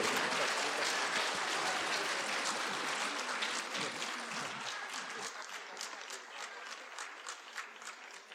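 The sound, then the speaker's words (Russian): Applause from the audience at an award ceremony and gala concert. Dense, lively clapping from many hands fills the first seconds, then slowly thins and softens until separate claps stand out near the end. “Аплодисменты ваши!”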